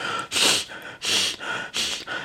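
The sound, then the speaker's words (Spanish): A person imitates the short, agitated breathing of someone who is angry: a quick series of loud, hissing breaths through the nose and mouth, with brief gaps between them. “Cuando uno está enojado, la respiración es corta. Uno hace...”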